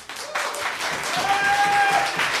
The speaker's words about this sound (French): c'est une des premières fois qu'on a trois applaudissements comme ça dans la foule avec un invité